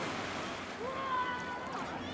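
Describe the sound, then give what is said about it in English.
Waves wash steadily onto a Mediterranean beach at Latakia at sunset where families gather, a soft, continuous surf hiss at low level with faint voices mixed in. “I'm on one of the beaches in Latakia. Loads of families enjoying themselves as the sun dips down into the Mediterranean.”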